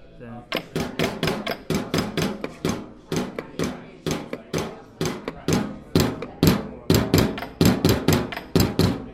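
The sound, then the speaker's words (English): Rapid, rhythmic tapping from a small spring-driven solenoid striking a biscuit tin, a wooden box and a tabletop, playing a tune as many sharp, fairly loud knocks in an uneven pattern. “that noise is made by a little mechanical spring mechanism that jumped on a biscuit tin, on a wooden box, and on the tabletop.”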